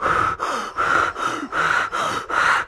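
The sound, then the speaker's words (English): A child imitates a movie villain's heavy breathing. The breaths are raspy and steady, a rhythmic series of drawn-out inhales and exhales with short pauses between them, and no words are spoken. “and I'm like, yes, yes, breathe heavy, child. Breathe heavy. This is Darth Vader.”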